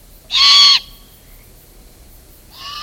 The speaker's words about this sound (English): That's the sound of avian teenagers begging for their next meal. It's what great horned owl parents have to put up with in the spring.